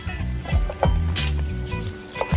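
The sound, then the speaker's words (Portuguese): A knife chops fresh parsley, leaves and stems together, on a board for farofa. A few irregular, dull knocks come through over a steady background. “Só tô cortando aqui a salsinha com talhe tudo.”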